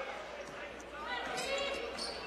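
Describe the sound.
A basketball bounces on the gym floor at Carleton College's West Gym during a men's college game between St. Olaf and Carleton. Its steady, rhythmic thuds run under continuous commentator talk.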